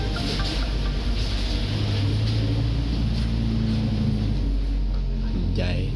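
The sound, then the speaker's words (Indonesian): Vehicles passing outside during a home recording, a continuous low engine rumble under a speaking voice, with a brief passing whoosh near the end. “Lagi-lagi tiap gue record, bakal banyak kendaraan lewat.”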